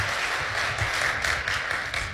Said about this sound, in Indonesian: Yang antusias kasih tepuk tangan sekali lagi yang paling dahsyat bagi Tuhan.